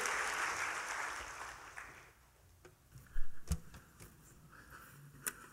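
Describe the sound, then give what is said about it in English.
Audience applause welcoming a pastor to the stage: dense clapping for about two seconds that fades out, leaving near quiet with a few scattered claps and knocks. “give a warm, big welcome to Pastor Tony Clark. Come on, let's give it up.”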